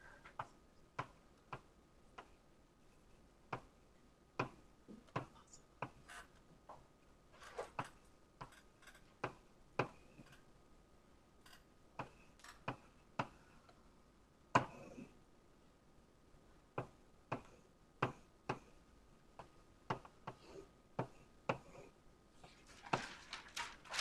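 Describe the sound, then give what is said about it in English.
Someone draws a diagram of path-encoded qubits by hand. Many faint, sharp taps and clicks of the drawing tool come at an irregular pace, with no talk over them. “let me just try and draw it first, and then I'll describe it”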